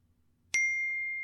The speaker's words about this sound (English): That's my phone.